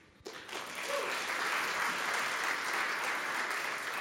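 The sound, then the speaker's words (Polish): Applause from an audience at a history book award ceremony breaks out after a brief quiet moment, then holds as a steady, even wash of clapping to the end. “Wielkie brawa.”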